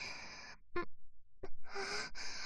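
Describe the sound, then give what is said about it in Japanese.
A woman's breathing, heard close and clear: a long airy exhale, two short sharp intakes, then a run of heavier, rhythmic breaths. “ほら、私の息遣いだって。”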